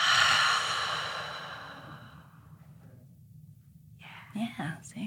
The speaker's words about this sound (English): take a deep breath through your nose, into your belly, hold it for a couple beats, and out through your mouth.